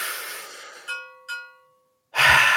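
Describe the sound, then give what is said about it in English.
A group of men inhaling deeply together. A broad airy breath opens, two short ringing clicks follow, then a brief silence before a louder, rushing breath swells at the end. “All right, boys, collectively, let's just go 1, 2, 3, breathe in.”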